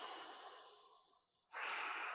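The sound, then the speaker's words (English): A person takes a deep breath: a long airy rush of air that slowly fades, a brief pause, then a second, louder and steady rush of breath. “Oh, take a breath.”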